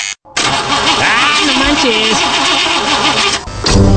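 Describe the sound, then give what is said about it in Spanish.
A car engine, just fitted with new engine seals and spark plugs, cranks but fails to start: the starter churns loudly in a steady, rhythmic whirr with a wavering pitch, never catching into a running idle. “¡No manches! Le acabo de poner los sellos al motor, le cambié bujías y ya no quiere jalar.”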